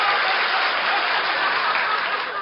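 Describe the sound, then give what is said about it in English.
Studio audience applause at a 1939 Halloween comedy show: a dense, steady wash of clapping that holds at an even level without a break. “Waving the audience to applaud at that crack.”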